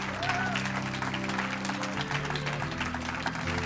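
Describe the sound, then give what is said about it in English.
Audience applause at a church service welcoming a preacher: dense, continuous clapping that holds steady throughout, with sustained musical tones underneath. “Let's make him welcome. Give him a hand.”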